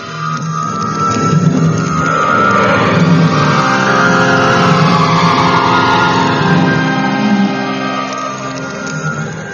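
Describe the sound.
Car engine pulling away, a loud, steady motor drone that swells briefly and then holds level for several seconds before easing slightly at the end, with no voices.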